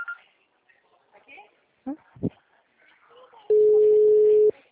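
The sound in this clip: A telephone tone during a call: a single steady, mid-pitched beep lasting about a second, following faint, low voices.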